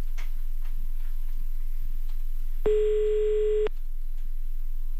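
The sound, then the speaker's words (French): An outgoing phone call ringing on the line: a single steady ring tone lasting about a second, heard over a faint, continuous ticking and low hum. “On appelle à Jambes. Ah, voilà, ça sonne.”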